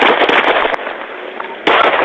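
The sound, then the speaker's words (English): Gunshots captured by a police dash cam during a traffic stop: a few sharp, loud cracks over a thin, muffled band of continuous noise. “Michigan shows a police officer dodging a bullet fired at his head during a traffic stop. The incident caught on the officer's dash cam video.”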